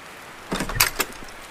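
A door is opened on a wet, wild night, giving a short cluster of a few knocking, rattling clunks over faint background hiss, with no voices.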